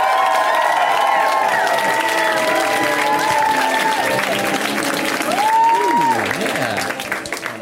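A comedy club audience applauds and cheers as a comedian comes on stage. Steady, dense clapping mixes with whoops and shrill whistles and holds strong throughout, thinning slightly at the end.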